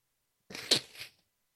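A single sneeze or stifled sneeze: a sharp, breathy burst that peaks early, then trails off in a softer rasp, alone in otherwise silent surroundings.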